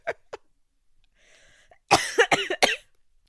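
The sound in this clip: Coughing from a person with allergies: two faint coughs, a pause, then a rapid burst of several harsh, loud coughs.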